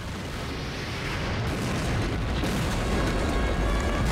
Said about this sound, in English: A rocket shoots towards the angels, who jump off the top of a high wall. The tower's blown to bits.